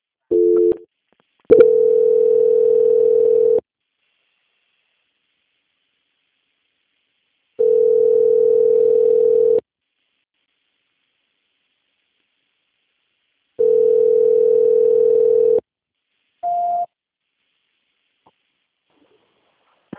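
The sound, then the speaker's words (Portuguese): Telephone tones play while a call is being transferred: three steady two-second tones at one pitch, separated by long silent gaps, with short brief beeps at the start and a higher beep near the end. “Graciela, peço que aguarde em linha mesmo que eu vou transferir o contato para a auditoria, Tá tá? bom. Só um minutinho, eles já vão atender. Transferência.”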